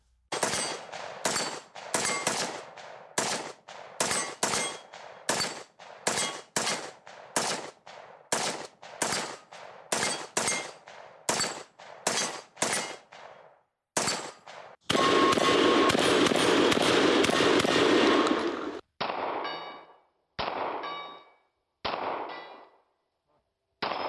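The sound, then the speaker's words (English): Gunfire from an AR-15 rifle, a shotgun and a Glock 19 pistol: many sharp, loud shots in quick, regular succession, then one dense sustained burst, then a few separate shots trailing off. “Now here is a guy shooting an AR-15, a regular old shotgun, and a Glock 19.”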